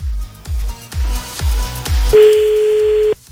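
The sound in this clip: A telephone ringing tone sounds while a call is being placed. A single steady, mid-pitched tone holds for about a second near the end, over a heavy, evenly thumping beat.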